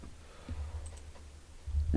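Faint, sparse clicks of a computer keyboard as a search is typed, a few light taps over a low steady hum.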